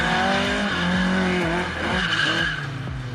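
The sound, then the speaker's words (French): Tires squeal and skid as a rear-wheel-drive Opel Manta oversteers, its engine droning and shifting pitch beneath the loud continuous screech, with no talking. “Ce qui est très sympa avec cet Opel Manta, c'est la maniabilité, son côté très survireur. C'est normal, on a quand même toute la puissance aux roues arrière.”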